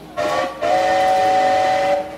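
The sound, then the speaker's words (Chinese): A train whistle blows as the train is about to depart: a short loud tonal blast, then a longer sustained one at a steady pitch, with no voices. “哎，火车又要开了啦！”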